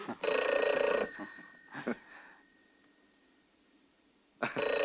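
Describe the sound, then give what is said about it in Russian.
A telephone bell rings in loud, bright metallic trills. One long ring sounds at the start, then a quiet gap follows, then another ring begins at the end. “Нина кивком указывает Бузыкину на телефон. Он идет отвечать.”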